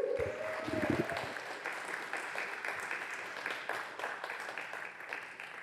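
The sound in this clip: Audience applause at a synagogue gathering, welcoming a speaker. A short vocal cheer rises at the start, then faint, steady clapping continues evenly to the end.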